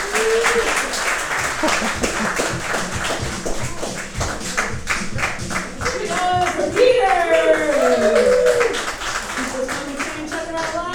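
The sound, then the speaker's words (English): Audience applause at a live comedy show, many hands clapping in a dense, steady patter throughout, with voices talking over the clapping in the second half. “a big round of applause for Peter Manichowski.”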